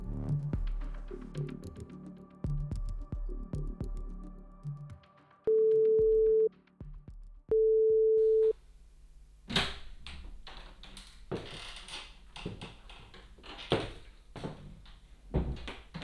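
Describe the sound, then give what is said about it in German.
Two short, steady signal tones, each a clear mid-pitched beep lasting about a second and separated by a brief pause, meant to play first on the left and then on the right as a headphone check. “dass Sie den Kopfhörer richtig herumtragen, werden vor dem Hörspiel zwei kurze Signaltöne erklingen. Der erste Ton links, der zweite rechts.”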